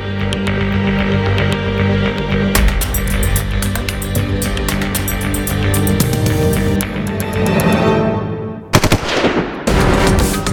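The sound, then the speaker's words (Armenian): Automatic gunfire rattles loudly outdoors after midnight in a sustained, dense burst of rapid shots. It breaks off briefly near the end, then resumes just as loud. “ու հանկարծ կեսգիշերն անց դրսում հնչեց կրակահերթը։”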